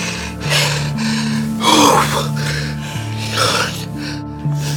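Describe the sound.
A man pants heavily as he catches his breath, letting out a few loud, breathy gasps and snorts between quieter breathing. Sustained musical tones play underneath.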